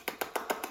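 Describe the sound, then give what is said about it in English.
A voice imitates the pricking of cellophane on a microwave dinner with five quick, soft, evenly spaced popping clicks. “Bing! I wonder what that was. That was the pricking of the cellophane.”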